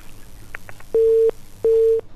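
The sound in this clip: Telephone busy tone after a caller's line dropped during a radio phone-in: two steady low beeps of equal length, evenly spaced, preceded by a few faint short blips.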